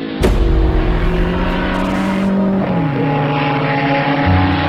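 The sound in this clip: Racing car engines roar loudly and without pause as cars overtake on a race track at the Harnage corner. Several steady, layered engine notes drop in pitch around the middle as one car passes, and a different engine note comes in near the end.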